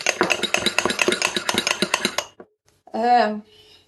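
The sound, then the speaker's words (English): Fork whisking a cracked egg in a bowl: rapid, busy clinking and tapping for about two seconds, then a pause and a short vocal sound. “And then give it a mix with a fork.”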